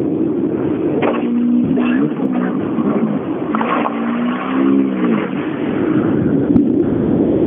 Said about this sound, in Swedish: Ta sin 208, R2 och rullar iväg.